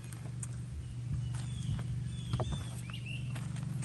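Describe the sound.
Footsteps walking through a vegetable garden, soft, steady steps over a low, continuous hum, with no talking.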